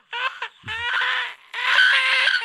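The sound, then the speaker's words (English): A person's voice tries to squeal, producing three strained, high-pitched bursts, the first short and choppy, the next two longer and sustained, loud against an otherwise quiet background. “Oh, man, I cannot get a squeal out to save my life.”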